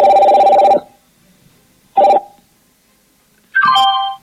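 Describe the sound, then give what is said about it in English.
An incoming WhatsApp call rings out as an electronic ringtone in three tonal bursts separated by silence, the first long and the others shorter, with no voices. “So the caller keeps calling. I'm not going to pick his call today.”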